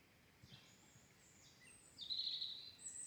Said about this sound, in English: It's funny how the birds and the bees sound like that, and then they also sound like this.